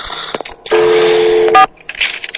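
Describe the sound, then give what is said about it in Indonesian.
A landline telephone in a bedroom is picked up and dialed during a power cut. Handling clatter leads into a steady tone lasting under a second, then a short electronic key beep, followed by more rustling handling noise. “Dengan bantuan cahaya handphoneku, aku langsung mengambil telepon yang ada di kamarku.”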